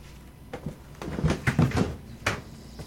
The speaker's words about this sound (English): so what I'm doing here is that I'm prying the archive open with my fingers.